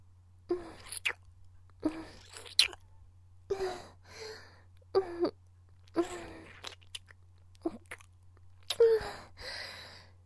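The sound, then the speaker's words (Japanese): Wet licking sounds on nipples come in many short, moist bursts with gaps between them, fairly soft over a steady low hum. “両サイドからあなたの乳首、私に舐められてしまうわよ。”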